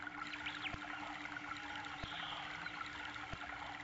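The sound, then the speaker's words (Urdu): Canal water flows in a steady, continuous trickling rush with a faint low hum beneath it. A few soft ticks break through, and no one speaks. “اس وقت آپ یہ جو نہر دیکھ رہے ہیں، تو یہ نہر کا جو پانی ہے یہ مائع جاری کہلاتا ہے، چلتا پانی”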